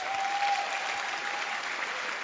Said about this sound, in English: You can clap your hands.